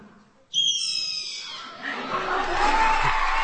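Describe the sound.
A person imitates a red-tailed hawk call with a single loud, high, harsh scream that slides slightly downward. Audience cheering and applause rise after it and keep building.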